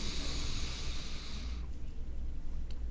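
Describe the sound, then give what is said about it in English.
Inhaling through the nose with the mouth closed during a breathing exercise: a soft, airy hiss lasting about a second and a half, then fading into faint, steady background noise. “And when you're inhaling, make sure the mouth is closed.”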